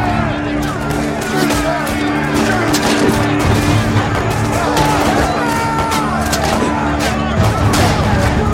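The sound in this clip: Gunfire volleys ring out on command in a dramatized clash at a barricade between Pinkerton detectives and striking Carnegie steelworkers: many sharp cracks pile into a loud, continuous din.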